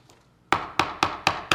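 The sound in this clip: Four sharp knocks on wood in a steady, even rhythm, each a crisp, loud rap that fades quickly, after a near-silent start.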